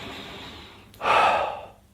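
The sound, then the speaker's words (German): A deep breath drawn in as one loud, airy inhale lasting under a second, rising out of near-quiet and then fading away. No talking. “Und nimmst einen tiefen Atemzug”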